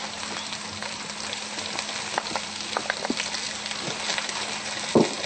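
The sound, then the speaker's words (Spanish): Mushrooms fry in a pan with soy meat, a low, steady sizzle scattered with small crackles and pops, then a louder clatter close to the end. “Y los champiñones. Esto debe quedar bien frito.”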